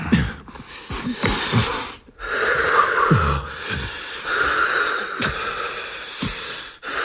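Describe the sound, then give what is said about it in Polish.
Heavy breathing from a person fighting off nausea: slow, loud, hissing inhales and exhales repeat throughout, some with a snorting, wheezy edge and brief pauses between breaths. “Oddychamy.”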